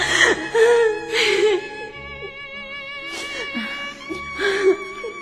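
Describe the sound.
A woman sobs, crying hard from hurt and resentment until she can no longer speak, in a few shaky, whimpering bursts with catching breaths. No words are spoken.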